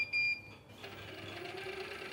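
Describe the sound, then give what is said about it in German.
Small lab mixers stirring paper pulp blended with dye and size give a steady motor whir. A thin high whine comes first, then a broader, even hum holds to the end. “So, jetzt drehen sich hier die kleinen Mixer.”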